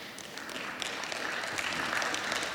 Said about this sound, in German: Ach, da haben nur 2 geklatscht.